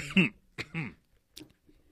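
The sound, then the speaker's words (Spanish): A person's coughs and throat-clearing come in a few short, rough bursts with pauses between them. The first two are the loudest and the last is briefer and fainter. “Hasta la pinche tos se me alocó.”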